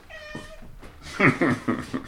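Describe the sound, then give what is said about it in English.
A pet cat meows on a bunk inside a mountain fire lookout cabin. It gives one drawn-out, tonal meow, then a run of several shorter, louder meows with clear harmonics. “His faithful companion lounges on the bunk in the corner. That's the cat.”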